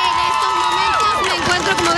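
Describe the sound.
Dense roar of a crowd of hundreds of high school students protesting for gun control outside the White House after marching from the Capitol, with overlapping shouting voices and cheering running continuously.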